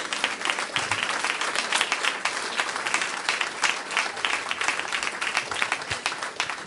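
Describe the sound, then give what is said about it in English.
A church audience clapping hands together in praise during a worship service: dense, sustained applause with rapid overlapping claps at a steady loud level, with no voices standing out. “Give the Lord a hand clap of praise this morning.”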